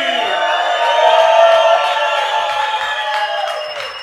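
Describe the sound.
A crowd cheers a performer at a show with a loud, sustained roar of whoops and shouts, easing off slightly near the end.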